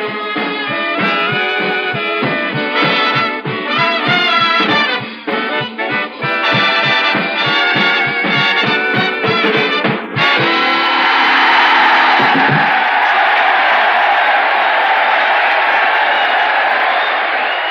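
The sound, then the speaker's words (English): An audience of officers and enlisted men at Jefferson Barracks, Missouri cheers and applauds. After a stretch of band music, a loud, broad roar of crowd noise carries on for several seconds. “Yes, sir, that's the sound of our audience, the officers and men of Jefferson Barracks, Missouri.”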